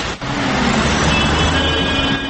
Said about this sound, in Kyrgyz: Бул жакта азыр көптөгөн адамдар жолдун ачылышын күтүп жатышат. Машиналар дагы бир нече чакырымга созулган авто тыгын пайда болду.